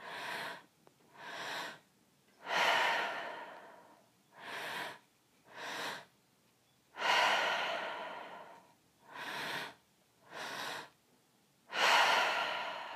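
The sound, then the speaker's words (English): Deep two-part breathing in and out through the mouth, with a breath into the belly and another into the chest before an exhale. The breaths repeat three times as two short airy inhales followed by a longer, louder breathy exhale, alone and without talk. “And it's called a two-part breath. And it's a deep breath into the belly. Deep breath into the chest, into the heart space, and an exhale.”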